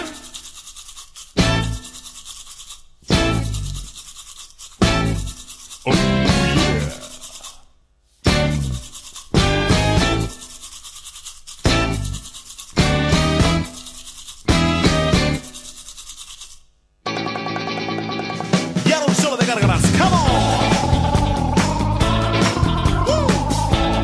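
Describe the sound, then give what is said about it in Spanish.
Brisk scrubbing of a brush in a series of short, loud, rasping strokes separated by brief pauses, then a longer, denser, unbroken stretch of brushing. “saco mi cepillo a pasear. Oh, mira qué brillo cuando saco mi cepillo a pasear. ¿Y cómo suena?”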